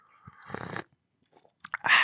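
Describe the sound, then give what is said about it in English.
Sips of a hot, sweet apple infusion tea: two short, airy slurping bursts separated by a quiet pause, with small faint mouth sounds in between, fairly soft overall. “It's a sweet apple infusion. It tastes like apples. It's really hot. It's really nice. And I like drinking it.”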